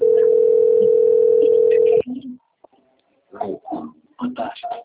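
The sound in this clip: A telephone ringback tone on an outgoing call: a loud, steady single-pitched tone held for about two seconds and cut off abruptly, followed by people talking.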